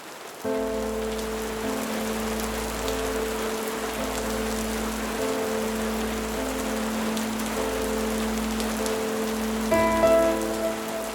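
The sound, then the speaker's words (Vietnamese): Heavy rain pours down in a dense, steady hiss that runs unbroken through the whole stretch and swells slightly louder near the end. “Cơn mưa dần nặng hạt.”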